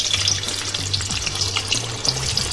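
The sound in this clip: Steady sizzling from a giant frying pan of gorgonzola being stirred at a food festival. A continuous crackling hiss carries light stirring sounds over low background tones.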